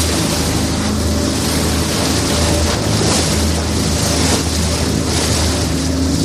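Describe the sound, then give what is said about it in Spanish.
A fishing boat's engine drones at sea in Spanish waters off La Línea de la Concepción. The low hum is buried in a loud, unbroken rush of wind and water, with no voices. “Este es el sonido del barco de Jonathan. Hace algunas semanas me subí a ese barco y estuve con Jonathan faenando, pescando en la línea de la Concepción”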